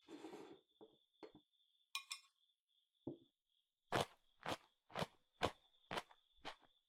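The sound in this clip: Raw daikon sticks dipped in miso mayonnaise are crunched: a few scattered crisp crunches, then a steady run of evenly spaced, loud, crisp bites.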